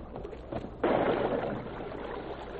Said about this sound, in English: I'm going to get a running start and dive right in.